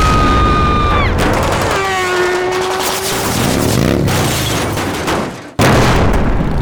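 Action-movie explosion and gunfire effects: sweeping tones open into a loud, dense barrage of booms and crackling blasts that holds steady, dips sharply to near silence for a moment, then slams back in at full force.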